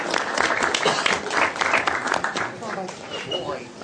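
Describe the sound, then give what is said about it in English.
Crowd applause for Thor the dog fills the whole stretch with dense, steady clapping at a fairly loud, even level, with voices mixed in. “Would applause upset Thor? Probably not.”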